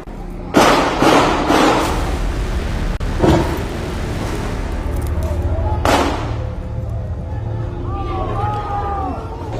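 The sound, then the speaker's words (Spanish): Gunfire at a street protest: a few sharp, loud bangs burst out at irregular intervals over a continuous wash of crowd noise and people talking. “Mire, mire quiénes están disparando contra quiénes.”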